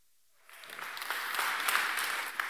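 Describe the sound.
Applause from a church audience at Harvest Ottawa welcoming a guest pastor and his family, swelling in after a brief silence and holding as a steady, dense wash of clapping.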